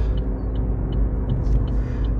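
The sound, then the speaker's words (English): Steady low engine and road rumble inside a car while driving, with faint, regular high ticks on top and no talking. “If the audio is a little bad, I'm in my car, so I certainly do apologize.”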